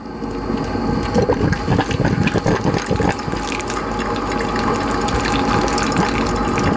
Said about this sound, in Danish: Dette er kaffe. Det er selvfølgelig kaffe. Da er kaffen klar straks.